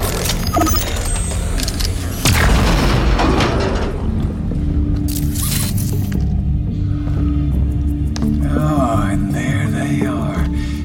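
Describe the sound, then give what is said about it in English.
An explosion blasts open a hatch leading to a missile silo, a sudden heavy low boom inside a dense, continuous wash of rumbling and mechanical noise that stays loud throughout. “I will blast the hatch that connects to the silo.”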